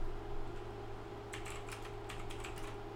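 Typing on a computer keyboard: a quick run of light, clicking keystrokes begins partway through and continues to the end, over a steady low electrical hum.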